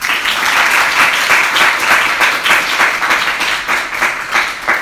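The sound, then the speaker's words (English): An audience applauds to welcome a speaker to a talk on European Union climate policy, with dense, sustained clapping that swells and wavers slightly for several seconds. “So please join me in welcoming Dr. Jürgen Salay.”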